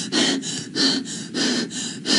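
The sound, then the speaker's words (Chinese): Gasping chest breathing, with quick, airy breaths repeating in a steady rhythm, alternating between stronger and slightly softer pulls of air. “因为你经常会感觉到喘不上来气儿的时候，你会这样。”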